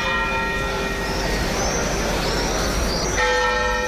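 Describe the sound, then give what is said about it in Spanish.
Cathedral bells swing and toll in mourning from the bell tower in Seville, a dense wash of overlapping metallic ringing with sustained ringing tones, loud and continuous throughout. “Son las campanas volteando a duelo en la Giralda de Sevilla y así sonaban en Jaén.”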